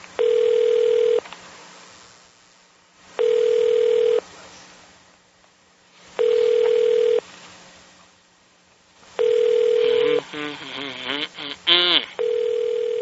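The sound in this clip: Telephone ringing tones on a line while a call is placed back: four steady, even beeps separated by longer pauses, followed by a short burst of garbled, warbling line sounds.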